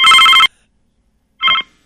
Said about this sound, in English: There it goes, your phone again.